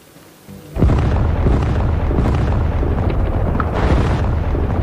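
Artillery explosions from a heavy bombardment of a city during a 1948 assault: after a quieter opening, a sudden loud blast launches a sustained, dense roar of many overlapping booms and rumbling bursts that continues to the end.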